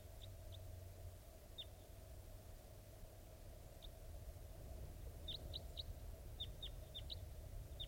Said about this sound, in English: I think wild birds are flying around somewhere nearby.